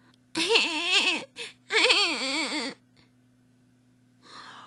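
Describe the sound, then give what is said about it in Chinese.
A voice imitates a little piglet crying in a children's story with a few loud, quavering wails in short bursts, followed by a pause and a faint, breathy sound at the end. “小小猪哭了，哦，该换尿布了。”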